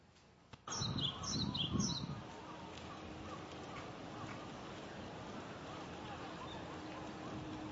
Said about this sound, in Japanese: 四十雀という鳥ですけども、